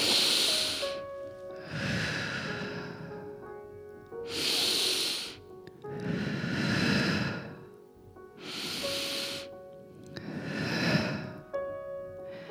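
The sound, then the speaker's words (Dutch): Three slow, deep breaths drawn in through the nose during a guided relaxation meditation. Each airy, hissing inhale is followed by a longer, softer exhale, over quiet sustained background music. “Maar laten we nog eerst even drie keer diep ademhalen. Door je neus.”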